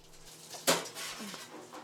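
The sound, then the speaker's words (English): Women washing up dishes in a tiny church-run dining hall: a sharp clatter of crockery, followed by softer clinks and rattling of plates and cutlery. “Bernardini reaches El Comedor, a tiny dining hall run by various churches where women are washing up dishes before serving a free breakfast to a crowd waiting outside.”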